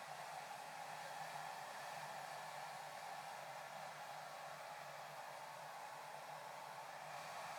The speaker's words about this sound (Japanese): こうやって髪をかき分けて、うなじや生え際も優しく乾かしてあげてください。